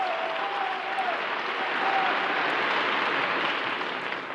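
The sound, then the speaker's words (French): Dense applause from a whole hall standing to acclaim a general at a large patriotic rally at Chaillot in September 1944, a continuous, even roar of many hands clapping that holds steady for over four seconds. “Toute la salle debout acclame le général.”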